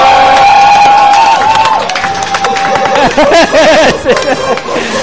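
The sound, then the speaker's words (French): Loud audience cheering and applause greet a guest's arrival. Excited shouting voices ring out over continuous clapping, staying dense and energetic throughout. “Teddy Freddy vient d'arriver, j'ai beaucoup d'ovation pour mon chroniqueur.”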